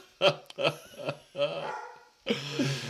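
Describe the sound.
A dog barks several times in short, yappy bursts, then gives a longer, rougher bark at the end. The barks are moderately loud, with brief pauses between them.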